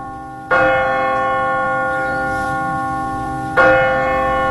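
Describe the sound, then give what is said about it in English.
Church bell of St. Mark's strikes twice, about three seconds apart. Each loud, clanging hit leaves a long, bright, humming ring that fades slowly until the next stroke, with no voices. “The bell of St. Mark's.”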